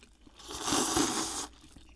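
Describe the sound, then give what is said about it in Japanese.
A crisp bite into fried tofu served alongside soy-based soba: one bright, crackling crunch that swells and lasts about a second, heard alone with no talk. “お揚げもまた美味しそう。いただいていいんですか。 はい、いただきます。 いただきます。 はい、うわ、いい音ですね。”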